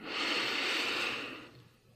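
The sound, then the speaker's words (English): A deep breath drawn in during a guided breathing exercise while lying down: one long, airy rush of breath that swells quickly, holds steady for over a second, then fades away. “Let's begin with a deep breath in. And release. And again, deep breath in.”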